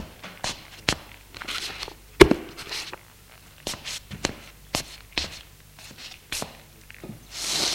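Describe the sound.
A man's footsteps and movements as he gets up, picks a book up off the floor and sits back down: a few soft thuds and rustles spaced irregularly, with quiet gaps between them.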